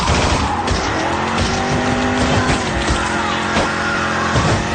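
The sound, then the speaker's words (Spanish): A coupé speeding through a crowd in a radio drama: loud, roaring engine with screeching tire squeal and rough, clattering impacts, continuous and intense throughout. “El auto atraviesa la barrera humana arrojando cuerpos despedazados con furia contra el asfalto.”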